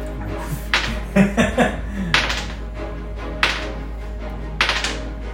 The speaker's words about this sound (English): Why are you rolling so many dice over there? That's like the sixth dice you've rolled.